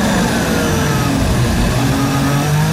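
An onboard Formula 1 racing car engine shifts up through the gears during a sprint race in Austria. It gives a loud, continuous high-revving roar, and its pitch steps up and down as the gears change.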